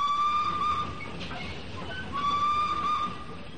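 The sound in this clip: A train at a station sounds two sustained, steady whistle tones separated by a short gap, heard over a low rumbling background.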